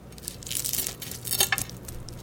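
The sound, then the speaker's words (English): Scratchy crackles and crunches come as a knife cuts through crispy-edged fried eggs just taken off an induction cooktop, a quick run of uneven, brittle bursts with no talk over them. “I'm gonna take that off the heat. I think that's done. And listen to this crisp as I cut through.”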